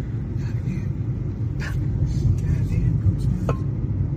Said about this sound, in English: Yeah, we're driving over the Arroyo right now.